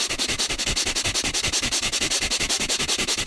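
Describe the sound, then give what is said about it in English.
Breath of fire yoga breathing: rapid, forceful bellows breaths pumped through the nose in a fast, steady rhythm of many short puffs. Each sharp exhale gives a crisp, hissing pulse. “So you take a deep breath out, and then begin the breath of fire, and then accelerate it.”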